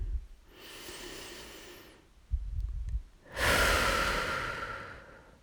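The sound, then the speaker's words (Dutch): Deep breathing in a guided relaxation exercise with eyes closed: one long, soft, airy inhale, a brief pause, then a longer and louder breathy exhale. “Dan is het fijn om even een aantal keer een diepe in- en uitademing te doen.”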